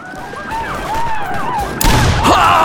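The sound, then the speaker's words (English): A gunshot sound effect marks Lieutenant Colonel Custer being shot at Little Bighorn: a sharp, loud crack breaks through a dense, noisy battle-like background full of warbling high tones. “Lieutenant Colonel George Armstrong Custer fell to his knees after being shot through the left side.”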